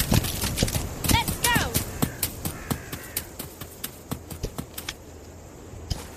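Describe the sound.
Horse hooves clip-clop at an even pace while riding through dark woods, with many crisp, regularly spaced strikes over a low background hiss.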